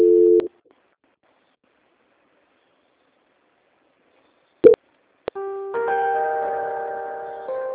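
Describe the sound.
Telephone line tones during a call transfer: a short steady tone, then a long silence broken by a couple of sharp clicks, then sustained layered tones at several pitches that continue to the end.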